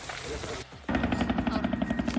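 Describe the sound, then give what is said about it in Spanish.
Helicopters work a wildfire near a home, their rotors giving a fast, steady, pulsing chop. The noise drops out briefly, then returns louder as rapid, rhythmic thumps. “Bueno, una hora después, todavía ni por aquí nadie, solamente los helicópteros, que llevan 15 minutos actuando.”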